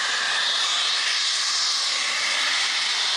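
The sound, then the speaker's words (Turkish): Natural gas gushes from a natural gas pipe punctured during work, a loud, steady, roaring hiss that continues unbroken from start to finish. “yoğun ses nedeniyle ekipler kulaklarını kapatmak zorunda kaldı. Doğal gaz borusu delindi, gaz metrelerce havaya yükseldi.”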